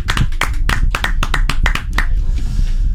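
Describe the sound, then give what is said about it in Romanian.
Applause from the Zoo team in a radio studio: many sharp, uneven hand claps in a brisk burst that thins out and softens toward the end, with no voices over it. “sunt aplauzele sincere. Am pornit microfoanele doar ca să auziți reacțiile echipei de la Zoo în fața artei.”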